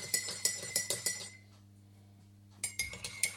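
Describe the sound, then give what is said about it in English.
A spoon clinks against a cup as sugar is stirred into tea: a quick run of light, bright clinks, a short pause, then another burst of clinking, with no talk. “gotta stir the tea to dissolve the sugar”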